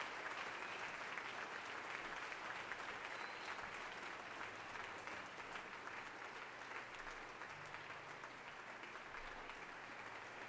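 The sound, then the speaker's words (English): A concert audience gives a standing ovation to a celebrated American composer at a youth symphony orchestra concert. Steady, continuous applause holds at a fairly soft level without breaks. “The audience still on its feet, applauding for this giant of American music.”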